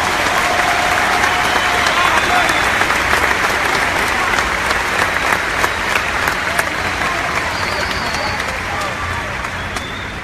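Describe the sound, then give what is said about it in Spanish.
Loud, sustained applause from a crowd at a business success and recognition event: thick, continuous clapping runs for about ten seconds without a break, easing off slightly toward the end. “Un fuerte aplauso para ti, hermano.”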